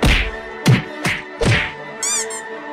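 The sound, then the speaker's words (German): Cartoonish whacks and thunks of blows landing on a reptilian foe in a comic superhero fight: several sharp, punchy impacts over a sustained ringing tone, ending with a brief warbling, wobbly sound effect. “Du hast Cobra Khan mit einem Schlag außer Gefecht gesetzt.”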